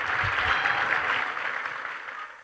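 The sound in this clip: A church audience applauds to welcome a couple home, with a steady wash of clapping that thins slightly toward the end.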